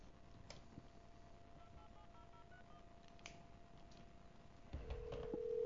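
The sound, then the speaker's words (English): Telephone tones as a call is placed to a Flying J: a faint steady tone runs under a quick series of short dialing beeps, then a louder tone takes over near the end. “And there's the call. See, will he pick up? Will Flying J pick up?”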